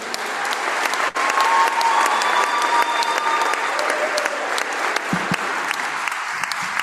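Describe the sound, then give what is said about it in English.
Fans at a high school sports event applaud a senior track and field athlete. Many hands clap in a broad, continuous wash that holds at a steady level for several seconds, with crowd noise mixed in. “Thank you to Mrs. Jack for all you do for all your students. And fans, let's have one more round of applause for number 11, Marcus Terwilliger.”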